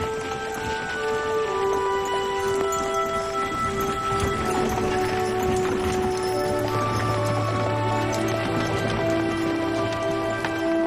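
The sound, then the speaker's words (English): Hooves of two horses clip-clop as they pull an uncovered wagon, a continuous patter of hoofbeats at a moderate level over sustained tonal sounds, with no talking. “Outside, two horses pull an uncovered wagon with Clark, Missy, and Marty.”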